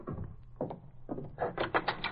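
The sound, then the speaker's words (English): A door being opened: a few broad, rattling bursts spaced about half a second apart, then a quicker run of brighter clatters toward the end, with no one talking. “Somebody's coming. Now, take it easy, take it easy. I'll open the door.”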